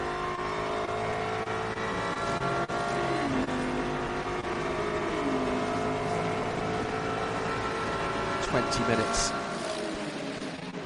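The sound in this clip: Endurance race cars, including an Alpine, run on track during a world championship endurance race. Their engines make a steady, high, whining drone with layered tones, and a sharper burst of engine noise comes near the end.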